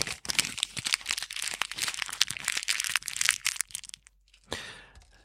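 Plastic packaging crinkles and crackles as an individually wrapped item is unwrapped. Dense, busy crackling runs almost without a break, stops for a moment, then returns in a shorter burst.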